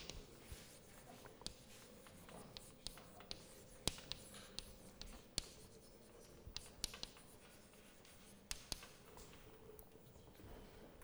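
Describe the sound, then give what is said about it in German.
Faint scratching of handwriting as the Schrödinger equation is written out, with soft continuous strokes and scattered light taps. “Ich schreibe nochmal die Schrödinger-Gleichung auf.”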